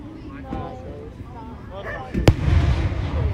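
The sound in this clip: Independence Day fireworks exploding: after a stretch of people talking quietly, one sharp, loud bang bursts out and is followed by a deep, rolling rumble that carries to the end.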